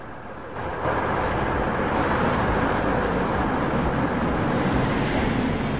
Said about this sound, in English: As dusk falls, the women drive along the road, then pull into the parking lot of a neon-lit bar.